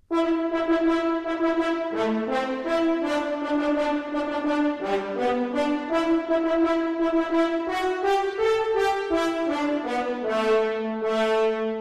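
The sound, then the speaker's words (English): French horns play the American sea-shanty folk tune about a drunken sailor, a bright, sustained brass melody of steady stepping notes that runs loud and unbroken throughout. “another American folk song, What Shall We Do with the Drunken Sailor, played in the French horns.”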